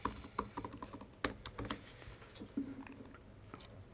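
Keyboard typing as a username and password are entered while setting up an SQL Data Warehouse: many quick, irregular plastic key clicks in uneven clusters, with a few sharper, louder strikes among softer taps.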